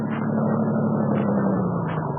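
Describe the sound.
A car engine runs in a radio drama scene, a steady, loud rumble with a low hum that sinks slightly in pitch, heard alone without voices.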